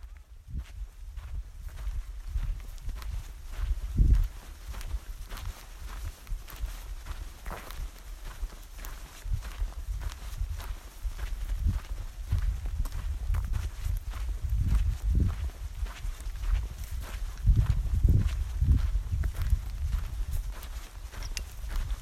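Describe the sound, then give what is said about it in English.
Footsteps walk through a dead forest in a steady run of many crunching steps, with a low rumble underneath. “We've been walking through what I can only describe as a dead forest.”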